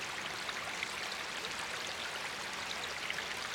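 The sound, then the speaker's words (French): Mountain stream rushing over stones: a continuous, even wash of flowing water with a bright, hissing splash texture, steady in level from start to finish and with no voices. “Tu décides de venir marcher sur les pierres du torrent.”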